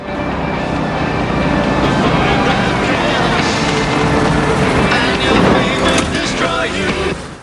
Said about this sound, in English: As Carter drives away, a white van pulls up.